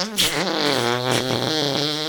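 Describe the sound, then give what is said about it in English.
A person imitates a long fart with their voice: a buzzy, wavering tone that holds for about two seconds at steady loudness, its pitch wobbling throughout. “That was the longest, loudest fart. I know, right? Let's see if I can still do this. I haven't done it since I was a kid.”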